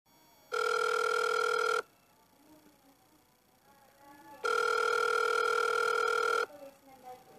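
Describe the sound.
A telephone rings back on an outgoing call: two long, steady electronic tones separated by a pause, with faint voices in the gap and after the second tone.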